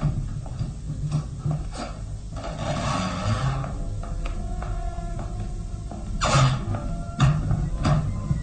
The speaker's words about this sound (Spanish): Calimán hace girar la llave en la mohosa cerradura